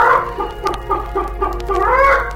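A hen clucking in a run of short, mid-pitched clucks, ending with a longer drawn-out call.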